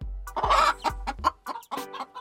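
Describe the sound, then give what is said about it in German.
Chickens cluck in a quick, uneven series of short, mid-pitched clucks and squawks, fairly loud, with brief gaps between bursts and no talk. “Hühner mag ich auch sehr gerne. Manchmal hole ich ja auch Eier bei den Hühnern im Stall.”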